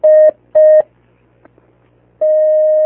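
Telephone line tones sound as a call-in connects. Two short, steady electronic beeps are followed by a pause, then a longer sustained tone at the same pitch, loud and clean with no talk.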